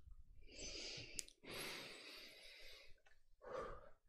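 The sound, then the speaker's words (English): A person breathes close into a microphone: three long, airy, hissing breaths, soft and low, with a brief click between the first two. “Hearing her breathe.”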